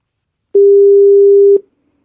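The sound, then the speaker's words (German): A single steady telephone ringback tone sounds while a call is being placed. The low, even tone lasts about a second, stops cleanly, and is followed by silence. “Jetzt rufen wir sie an.”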